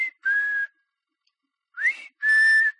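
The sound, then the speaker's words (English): A person whistles a few clear, high notes, mostly steady. Long silent gaps separate them, and one short note slides upward just before the final held tone. “And they'll look, and they'll look, and they'll look, and I'll start whistling.”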